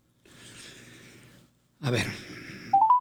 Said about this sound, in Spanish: A ver, vamos a volverla a marcar porque no se oye bien.